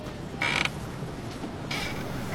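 A playground swing creaks twice in short, high-pitched squeaks with a quiet pause between them, and no voices.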